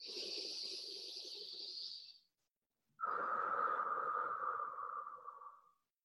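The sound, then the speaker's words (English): Deep breaths drawn in during a guided relaxation, each a long, steady airy inhale lasting about two seconds, the second slightly louder and fuller, separated by a short pause, with no talking. “Deep breath in.”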